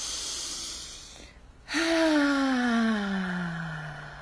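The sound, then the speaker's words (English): A deep exhale through the mouth voiced as a long, steady tone that slowly sinks in pitch, after a quieter breathy stretch and a brief pause, during a slow deep-breathing exercise. “In through the nose, out through your mouth. Please, on each breath, on the out breath, make a sound.”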